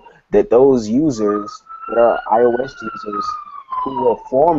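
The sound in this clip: A police siren wails outside a New York window. One long tone climbs slowly and then sags again, sustained beneath continuous conversation.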